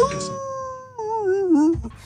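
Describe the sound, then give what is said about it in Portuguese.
A person imitating a wolf howl with a sustained voiced tone that dips briefly, then wavers and glides downward before breaking off. “A gente tinha o coiote, agora tem um lobo.”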